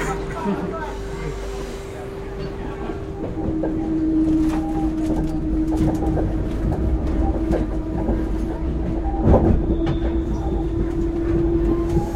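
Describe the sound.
A direct RER suburban train heading south out of Paris runs past with a steady, heavy rumble, rattling clatter and a constant humming tone that grows slightly louder partway through, with a brief sharper clack near the end.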